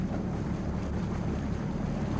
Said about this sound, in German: Das Wasser teilt sich so schön am Bug.